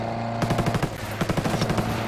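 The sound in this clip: Automatic gunfire rings out in a tactical military shooter video game: a quick burst of several shots, a short pause, then a longer rapid string of sharp cracks.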